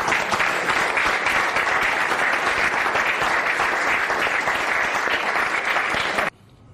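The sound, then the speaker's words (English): Applause from an audience at a presidential address, a steady, dense wash of many hands clapping at even loudness for about six seconds before cutting off abruptly. “did you notice that it was Interior Secretary Doug Burgum who was clapping by himself before everyone else jumped in seemingly to not offend Trump”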